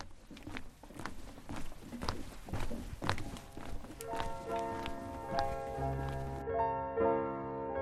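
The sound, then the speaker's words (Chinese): Footsteps walk along a meditation path through a forest, a steady run of soft irregular steps, joined by quiet sustained tonal music in the second half. “我现在就走在这条路上。”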